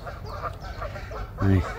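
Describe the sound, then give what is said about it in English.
Canada geese honk near a carp-fishing spot: a few nasal honks over a low, murmuring background, with one louder honk near the end. “Canadian geese, I think, are gonna do my head in through the night.”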